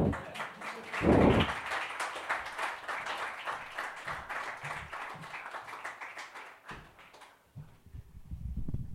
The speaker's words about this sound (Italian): Chiedo solo un grande applauso per Marina Abramovic.